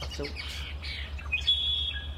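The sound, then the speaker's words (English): Birds in a marsh soundscape on Saturna Island, British Columbia, give quick chirps and a thin, high whistled call over a steady low rumble. “of the soundscape from the Tektexan Marsh in unceded Wassanic Territory on Saturna Island, British Columbia.”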